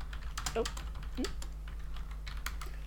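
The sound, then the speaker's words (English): Typing on a computer keyboard: many quick, faint, irregular key clicks over a steady low hum, with a faint voice in places. “Just wanted to make sure there was a dead zone for me to type.”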